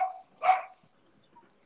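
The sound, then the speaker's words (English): A dog barks a few times, giving short, faint yaps with gaps between them and no talk over them. “and the dog. Wait, you guys got a dog? No, that was somebody else's.”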